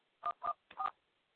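Touch-tone keypad tones as a PIN is dialed on a telephone: a few short, clear beeps at an even pace, with a fainter tone at the end. Nothing else is heard.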